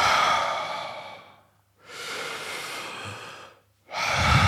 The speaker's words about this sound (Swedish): Och så inpusta är ganska sån långt och länge och långt och djupt liksom. Långt och djupt och så då brukar du kraft. Och så utpustar bara slippar ut.